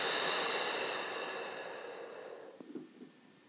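Breathing during a guided exercise, in through the nose and out: a long, airy exhale that fades slowly, followed by a few faint, soft breath sounds near the end.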